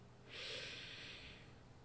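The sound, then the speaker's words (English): A single deep breath is drawn in, a soft, airy inhale lasting about a second, faint and alone with no talk. “take a deep breath. Inhale.”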